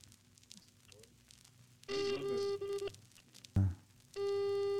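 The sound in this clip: A telephone ringing tone plays over a speakerphone during a call: two long, steady electronic tone bursts, the second still sounding at the end, with a brief thump between them.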